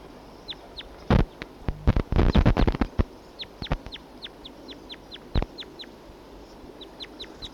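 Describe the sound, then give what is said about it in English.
Wild birds call together: many short, high chirps repeat throughout, mixed with a cluster of loud, harsh clucking bursts in the middle. No one speaks. “Two wild birds together.”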